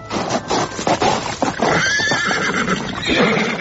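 A horse whinnies loudly with a wavering, high-pitched neigh over a clatter of hooves, the hoofbeats and snorting noise continuing steadily throughout.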